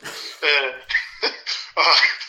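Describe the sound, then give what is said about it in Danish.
A run of harsh coughs from a person ill with corona, several uneven bursts in quick succession, some partly voiced and rough. “Host.”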